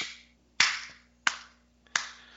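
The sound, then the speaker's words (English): A slow, sparse golf clap: three sharp, separate hand claps spaced evenly about two-thirds of a second apart, each decaying quickly into near silence, with a faint tap just before the last. “That's a golf clap.”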